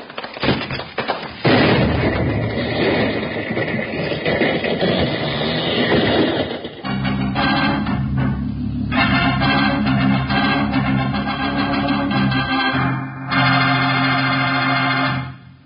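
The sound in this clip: An explosion goes off after a burning fuse in a Wild Bill radio drama: crackling clicks, then a long, loud roaring blast that gives way to dramatic music.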